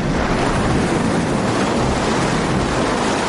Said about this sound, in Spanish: Varias veces al año, una excepcional marea alta de primavera se adentra en el cauce del río Severn, creando una pared de agua marina en movimiento